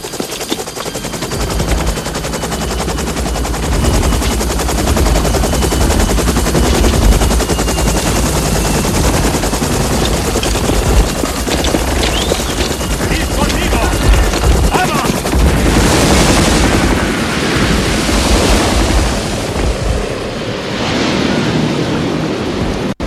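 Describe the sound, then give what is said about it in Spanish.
Two-metre ocean waves breaking on either side, heard as a loud, continuous crashing roar that surges repeatedly, with heavier swells toward the end. “¡No, no! ¡Las olas! ¡Las olas! ¡Ah, ya! ¡Fíjate! ¡Rompen a un lado y al otro! ¡Mira! ¡Olas de 2 metros!”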